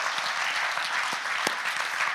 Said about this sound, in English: And I think we should applaud God for that, right?